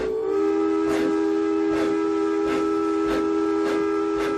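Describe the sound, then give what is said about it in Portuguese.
A steam train whistle holds one steady, piercing tone throughout, with a regular series of hissing steam puffs pulsing beneath it at an even rhythm. “E apitou, vindo em sentido inverso, um outro trem iluminado.”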